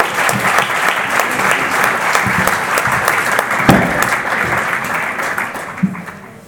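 Dense, steady applause from a conference audience fills the whole clip as an epidemiologist is introduced at the closing session of a health movement assembly, a loud, even wash of many hands clapping with no break.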